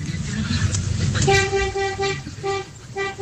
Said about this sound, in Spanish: Este pito es más grueso. Ese sí, es como de camión, ¿no?